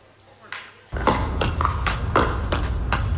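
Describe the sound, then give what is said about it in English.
Sharp, hollow pocks of pickleballs being thwacked by paddles. Many quick hits come at an uneven rhythm over a constant background of activity noise. “That is a pickleball. Okay, enough of that. That's a pickleball thwacking sound.”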